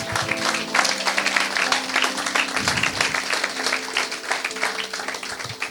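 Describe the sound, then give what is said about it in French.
An audience applauding and acclaiming during a sermon: continuous, loud, dense clapping that holds steady throughout, with a low hum of crowd noise beneath it. “Est-ce qu'on peut acclamer ces héros?”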